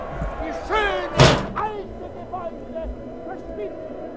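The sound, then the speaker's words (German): A window is slammed shut in a 1978 German radio crime play, one sharp, loud slam breaking in among people talking. “Schließen Sie das Fenster, Colt. Jawohl,”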